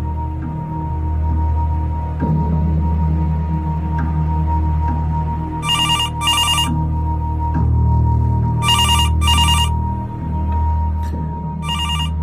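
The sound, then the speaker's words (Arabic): A telephone at a hotel reception desk rings in two double bursts. Each burst is a pair of short, bright, trilling rings, heard over a steady low droning background. “المفروض مش انا اللي ارد على التليفون في الفترة الاولانية، بس زميلي قال وقال لو سمحت رد”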